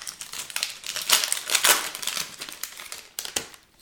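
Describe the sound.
Wax packs of trading cards being opened: brittle wrapper crinkling and crackling in dense, rapid bursts that swell and fade over a few seconds, fairly loud, with no voices.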